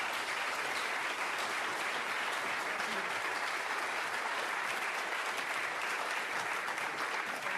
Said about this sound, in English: I wonder if you could put your hands together and welcome this excellent panel.